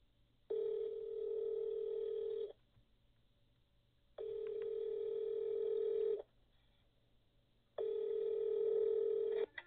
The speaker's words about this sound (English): Turn your volume all the way up. Okay. I'll leave it right here and put it on speaker. Okay. Dial it.